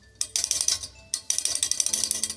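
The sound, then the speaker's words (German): A clockwork tin toy bird is wound with a small key, giving rapid ratcheting clicks in two bursts separated by a short pause, each series of crisp mechanical ticks steady and fairly loud. “Und für mich öffnet er eine Vitrine und zeigt, wie das meiste mechanische Spielzeug funktioniert. Nämlich mit einem kleinen Schlüssel kann man es aufziehen und dann...”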